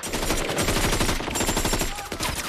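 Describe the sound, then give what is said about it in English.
Loud gunfire as mercenaries crouch and fire up at a building in a battle: rapid, overlapping shots form a dense, continuous barrage throughout. “Two mercenaries crouch and fire up at a building.”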